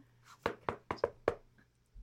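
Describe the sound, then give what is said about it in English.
Five sharp knocks sound on a door in quick succession, faint and fairly evenly spaced, followed by quiet. “Oh, there's a door. There's a knock on the door.”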